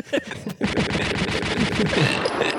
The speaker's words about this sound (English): Just donate to the flare gun thing so you can hear this every week.